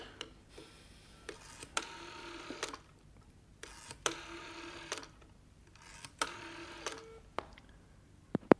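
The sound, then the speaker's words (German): A telephone is dialled to place a call: a quiet series of short whirring mechanical bursts separated by brief pauses, with sharper clicks near the end. “Dann werde ich sofort Henry anrufen.”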